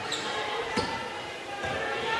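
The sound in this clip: A basketball is dribbled on court during a women's game, with a few dull bounces faintly audible over steady crowd noise.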